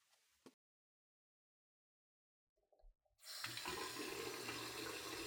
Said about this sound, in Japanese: まずは手を洗ってきますから待っててください。